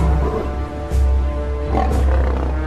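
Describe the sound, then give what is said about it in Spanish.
Lions roar with deep, rumbling, sustained sound that swells to a couple of louder peaks and stays loud throughout. “Y ahora con nuestros leones.”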